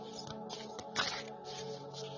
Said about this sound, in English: I'm just going to shuffle and see what kind of message comes out for you.